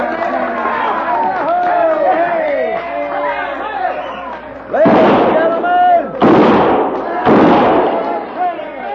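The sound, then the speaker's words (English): Six-gun gunshots crack through a crowded saloon: three loud, sharp bursts in the latter half, each ringing out briefly, over steady crowd chatter and voices. “kindly refrain from shooting six guns in the establishment”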